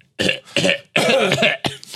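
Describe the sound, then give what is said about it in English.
Coughing from someone who leaves the mouth uncovered: a few harsh, breathy bursts in quick succession, loud and alone without any talk. “That's how kids cough. Kids don't cover their fucking mouth. They'll cough right in your mouth.”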